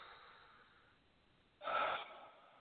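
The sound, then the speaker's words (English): A single deep breath taken in and let out on cue, faint airy breathing swelling into a louder rush of air that then eases into a softer tail. “Deep breath. And let out.”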